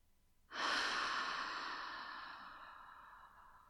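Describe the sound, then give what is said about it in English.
A single slow, audible breath, part of a guided breathing exercise, swells suddenly to a soft, airy rush and then fades gradually over about three seconds, with no voices. “Inhale. Exhale.”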